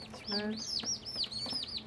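Young chickens of a hardy breed, one a likely cockerel, give quick, high, arching peeps and clucks. The calls repeat many times at a faint level, and a brief low tone is heard near the start.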